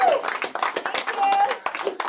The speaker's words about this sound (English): Give her another round of applause, please.